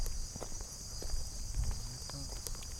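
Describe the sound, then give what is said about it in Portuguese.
Faint footsteps walking up a ramp, a few soft irregular steps over a steady high insect-like hum. “Agora vamos subir na rampa de novo. Então aqui, vamos caminhando e observando.”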